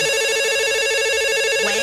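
Telephone ringing with an incoming call, a loud steady electronic ringtone with a fast warbling pulse held for nearly two seconds, with no talk.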